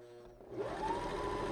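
A sewing machine motor runs while stitching fabric, its whine climbing in pitch as it speeds up, then settling into a steady, fairly quiet hum with a rapid mechanical rattle.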